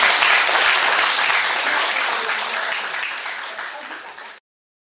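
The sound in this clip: An audience welcomes a speaker with loud, dense applause. It begins at full strength, eases off slightly over about four seconds, then stops abruptly.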